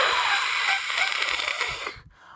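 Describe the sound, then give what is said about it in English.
A voice imitates the hiss of the monster Zerum from Iria: The Animation. It is a long, sustained, bright and noisy hiss lasting about two seconds, which cuts off abruptly. “So you have, like, the sound effect Zerum makes when it, like, hisses at people”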